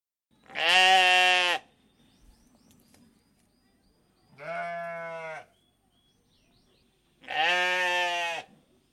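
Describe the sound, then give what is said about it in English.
Three long, strained bleats from a farm animal, each lasting under a second, separated by quiet gaps with faint background rustling and no talk. “So let's return to the farm sounds previously in progress.”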